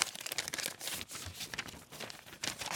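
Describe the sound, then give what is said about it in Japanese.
A present bag is rustled on purpose to draw out a letter, giving loud, crinkly bursts of paper or plastic that come irregularly throughout, with no voices. “わざわざガサガサ言わしてるのラジオラジオ上の演出ですからね、皆さんね。”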